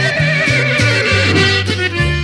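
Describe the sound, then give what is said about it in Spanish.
A horse whinnies and snorts over a steady rhythmic band accompaniment with stepping bass notes, its wavering neigh running loudly through the passage. “Y nomás se oían esos relinchidos y los resoplidos de aquel animal.”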